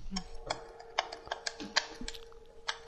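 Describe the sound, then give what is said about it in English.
Someone types on a computer keyboard, producing soft, irregular clicks and taps with a few sharper keystrokes among them. “Let's see. The tale of... Can't type anymore. Like... Autocorrect has ruined me.”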